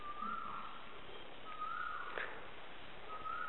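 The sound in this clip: A bird sings faintly, giving three drawn-out whistled notes spaced a second or so apart, each holding a fairly steady pitch, over a quiet background hiss.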